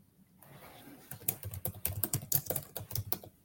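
Rapid typing on a computer keyboard as someone writes in an online chat. Many irregular, crisp keystroke clicks run steadily from about the first second to the end, with no voices.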